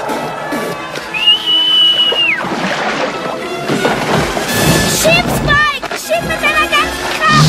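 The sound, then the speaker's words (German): A character gives a whistled signal in a prehistoric dinosaur adventure audio drama for children: a sustained high note, then short wavering whistles later on, all set against loud crashing, rumbling effects and dense background music. “Verzweifelt pfeift Petri so gut er kann, um das Signal zu geben, den Stein auf Scharfzahns Kopf fallen zu lassen.”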